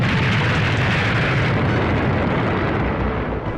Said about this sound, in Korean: 이윽고 포탄 서너 발이 구성 부근의 큰 길에서 터졌다.